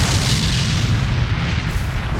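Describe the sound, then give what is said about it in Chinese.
A thunderous explosion from a magical area attack mixing wind, thunder and evil power, deep in a great forest: a loud, sustained, low rolling rumble like heavy thunder that fills the whole stretch, with no voices. “如同惊雷滚滚，剧烈的轰鸣声在这片星斗大森林深处响起，恐怖的爆炸声摧毁了周围大量的植物。”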